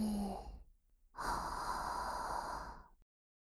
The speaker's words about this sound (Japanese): 深呼吸をするっす。吸って、吐いて、